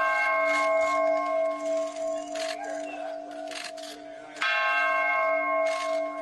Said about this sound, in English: he took part in the ringing of the peace bell